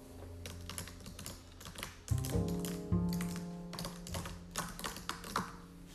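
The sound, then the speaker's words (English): Fingers tapping on a computer keyboard in a long run of quick, uneven clicks, some strikes landing sharper and louder than others, with no talk. “The first one is computer tapping.”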